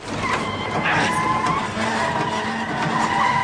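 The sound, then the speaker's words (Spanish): Tyre skid of a van with a punctured tyre veering off the road, a loud, continuous screeching roar with a steady whining tone running through it for the whole stretch, no voices. “Y sigue haciendo presión hasta pinchar la rueda. El vehículo se sale de la carretera y los ocupantes se bambolean en el interior.”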